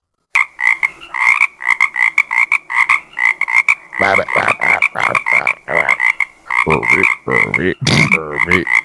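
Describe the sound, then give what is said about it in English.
A coqui, the Puerto Rican tree frog, calls over and over in sharp, high two-note chirps. Many calls come in a quick, steady rhythm, loud and alone. “I can get the coqui, which is a Puerto Rican tree frog. And the reason it's called the coqui is because it makes a sound that sounds like the word coqui.”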